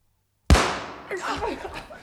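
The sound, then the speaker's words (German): A gunshot fired by a robber captain: one sharp, loud crack that decays into a lingering tail, followed by faint voices. “Der Hauptmann! Er muss zum dritten Mal schießen!”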